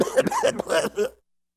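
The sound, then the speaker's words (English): A person gives a quick run of harsh, voiced coughs, several rough bursts packed into about a second before the sound cuts to silence. “That was a good reason to cough. I really needed to.”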